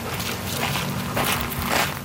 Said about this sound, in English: And for them, it was about being able to get out and get active, say, walking their dog in nature.